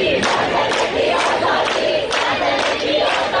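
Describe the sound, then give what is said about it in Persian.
Protesters chant slogans in the street in Ekbatan, Tehran, a loud crowd of voices shouting in a repeated, rhythmic pattern with short pulsing bursts. “مردمی که در اکباتان شعار می دهند”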